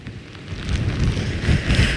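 Gusty wind with alternating sleet and rain in Hörgársveit. It makes a continuous rushing, hissing noise with low, buffeting rumbles that swell and ease.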